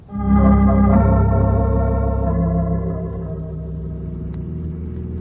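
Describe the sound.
Car engine rumbling steadily as the vehicle drives out to the country, a loud, continuous low drone with a faint whine that eases slightly in volume partway through.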